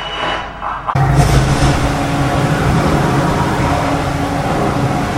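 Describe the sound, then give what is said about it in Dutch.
A tornado roars closer to a storm shelter, a deep, steady rumble like a freight train that swells abruptly after about a second and stays loud throughout. “En dan gaat het luik open en dan komt de tornado dichterbij, voelbaar dichterbij.”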